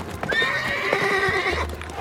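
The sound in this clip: A horse pulling a chariot neighs in a long, shrill, wavering whinny over a steady patter of clip-clopping hooves.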